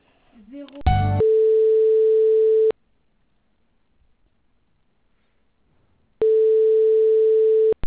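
Telephone tone while a call is transferred: two long, steady mid-pitched beeps separated by a few seconds of silence, preceded by a brief murmur and a short burst of noise.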